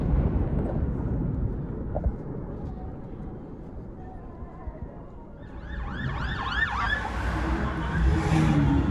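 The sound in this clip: An ambulance siren joins a low rumble of road traffic partway through, its rapid rising and falling wails growing louder toward the end.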